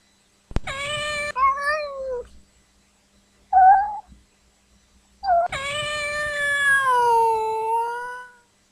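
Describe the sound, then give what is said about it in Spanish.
Meowing from a frightened cat waiting for its food: a few loud, wavering meows on their own, with a short fainter one in the middle and a long final cry that slowly sinks in pitch. “Este es un gato que espera su comida. Gato asustado.”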